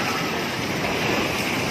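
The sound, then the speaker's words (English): Roaring rush of a tsunami wave smashing through low-lying bayside buildings in Palu, Indonesia, after a magnitude 7.5 earthquake: a dense, steady, loud wash of noise lasting the whole brief clip with no distinct breaks. “That's the sound of a tsunami blasting through low-standing bayside buildings in the city of Palu, Indonesia.”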